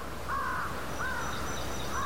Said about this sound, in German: Es ist Ebbe. Nur vereinzelte Krähen flattern von den Küstenwäldern der Bay of Fundy über das Watt